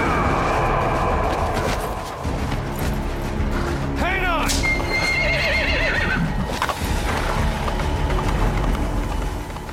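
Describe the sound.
A horse whinnies sharply midway through a video game horse chase scene in the woods. The loud neigh rises over steady hoofbeats and other busy game noise.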